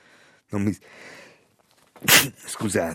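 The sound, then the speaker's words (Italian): A person sneezes once in a sharp, hissing burst, with short voiced sounds just before and after it. “uno starnuto fuori programma”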